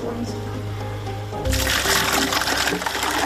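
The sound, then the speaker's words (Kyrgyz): Water gushes in a sudden, loud rush partway through and keeps pouring to the end as a woman in a small town pours water she carries daily in buckets. A voice is heard before the pour. “Кошкөлү келин ушинтип сууну күнүгө чакалап ташып келет.”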